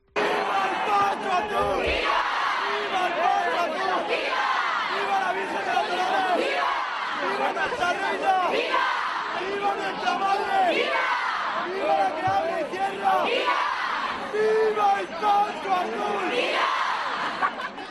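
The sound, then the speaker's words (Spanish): A crowd cheers the Virgen de los Dolores procession during Holy Week in Lorca, shouting vivas in repeated rhythmic bursts. Many voices rise and fall together at a steady, moderate loudness. “Fue recibida con vivas y pañuelos azules agitados al cielo, un momento vibrante que nos dejaba este sonido.”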